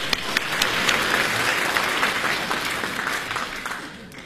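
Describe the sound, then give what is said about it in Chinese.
Audience applause at a live stage show, steady and loud dense clapping that holds at an even level for the whole stretch with no voices over it. “再来点掌声”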